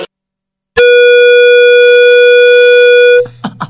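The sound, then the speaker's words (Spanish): A loud horn blast holds one steady, buzzy pitch for about two and a half seconds and then cuts off abruptly. A few brief, faint sounds follow. “Metes el mayor bocinazo.”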